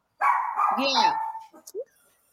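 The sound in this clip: Dogs bark and yip excitedly, starting with a long, busy stretch of overlapping barks and then breaking into a few short, sharp yaps before going quiet.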